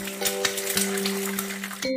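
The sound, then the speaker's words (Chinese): An egg frying in a hot pan gives a steady, crackling sizzle with rapid tiny pops, holding at an even level throughout before stopping abruptly at the end. “每天早上，厨房里拉露拉都会煎一个鸡蛋，当做早餐。刺啦，就是这样的声音”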